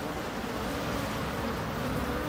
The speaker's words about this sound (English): The undertaker bees there to take care of the dead and remove them from the hive.